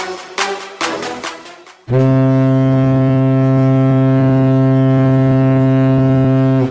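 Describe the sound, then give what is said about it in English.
Ship's horn from a ship coming in: after about two seconds of irregular rattling, a loud, deep, steady blast sounds and holds unbroken for nearly five seconds. “Ah, that is the sound of my ship coming in.”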